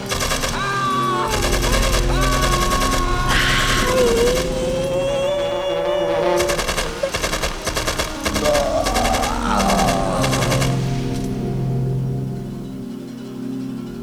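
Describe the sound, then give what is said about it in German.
Automatic gunfire from a guard shooting at someone at a courtyard gate: several long, rapid bursts of loud, crackling shots, with sustained tones beneath. “Zeigt euch! Oder ich schieße!”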